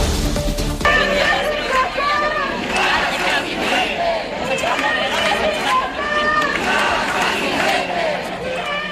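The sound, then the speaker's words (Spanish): Street crowd at a housing protest: a dense mass of voices with overlapping shouts and chatter, sustained and fairly loud throughout. “Este es el sonido de las calles en este sábado 13 de octubre.”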